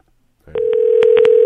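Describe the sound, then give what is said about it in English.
Telephone number being dialed: a steady dial tone starts and holds to the end, broken by a few sharp key-press clicks in quick, uneven succession. “Gold Center, can you get Huckapoos on the line? Yeah, let me dial him up right now.”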